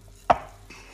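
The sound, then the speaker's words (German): Cookie dough with butter is kneaded by hand, marked by one soft, dull thud followed by a much fainter second contact. “Einfach gut durchkneten, dass sich die Butter gut mit allen Zutaten, allen anderen Zutaten vermischt.”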